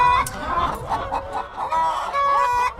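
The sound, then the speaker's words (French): Hens clucking inside a henhouse bedded with straw: loud, overlapping clucks and a few drawn-out, nasal calls rise and fall continuously from several birds at once. “La poule est quand même un animal assez peureux, qui est très curieux, mais qui malgré tout est très peureux, puis surtout qui est cardiaque. Elles sont sur une espèce de paille qu'on change toutes les semaines. Elles me piquent les pieds.”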